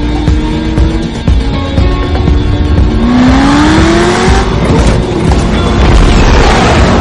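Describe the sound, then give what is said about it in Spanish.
A sports car roars as it accelerates along a highway to about 110 miles per hour in an action thriller chase, the loud engine note climbing in pitch as it revs up, with a deep, continuous rumble underneath. “deportivo acelera y el cuenta kilómetros marca 110 millas por hora”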